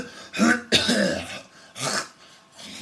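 A person clears their throat to bring up phlegm, making three harsh, raspy bursts in close succession, fairly loud and heard alone without talk.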